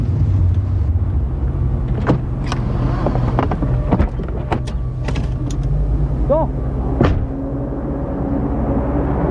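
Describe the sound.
A car pulls over to the roadside and stops at the foot of a mountain, its low engine rumble running steadily throughout, with a few sharp clicks and thumps and a brief whistling tone partway through.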